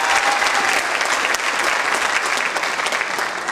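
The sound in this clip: Dense, sustained applause from a church audience for gospel quartet singers, steady and loud throughout with no pause.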